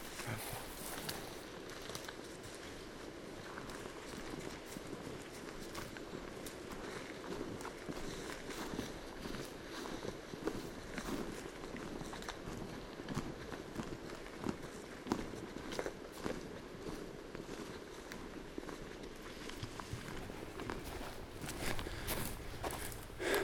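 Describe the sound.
Footsteps walk through an open, bright pine forest, a long run of steady, evenly paced steps over the forest floor, with a few louder footfalls near the end.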